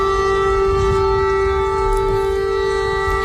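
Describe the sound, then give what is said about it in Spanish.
An air raid siren sounds over Kyiv as a loud, steady, unbroken tone with layered harmonics, held throughout above a low rumbling background. “Este es el sonido de las sirenas y los ataques. Ahí suenan los bombardeos sobre la capital ucraniana.”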